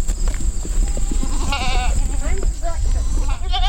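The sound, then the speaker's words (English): Goats bleating while grazing on ragweed, goldenrod and milkweed. Two quavering bleats rise over steady background noise, and a person talks throughout. “I see one of the goats is eating milkweed.”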